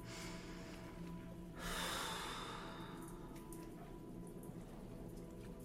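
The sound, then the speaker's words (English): One deep breath, a single faint, airy rush of about half a second near the middle, with no speech around it. “Take a deep breath.”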